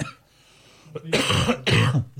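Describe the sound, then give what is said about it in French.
A man coughs twice, harsh and loud, after a faint throat sound, with no talk during the coughs. “Désolé, je vais tousser un peu.”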